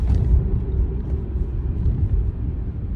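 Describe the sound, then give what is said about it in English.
Low, steady rumble of a car coasting along a road, a continuous drone at moderate loudness with no talk. “I'm pretty close to home already. I've just been fucking driving. So I've been coasting.”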